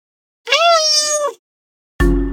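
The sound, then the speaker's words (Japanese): A cat meows once, a clear, sustained, high-pitched meow of about a second. After a pause, another short vocal sound starts at the very end. “今週の可愛いペット映像はすっぽり収まる猫。”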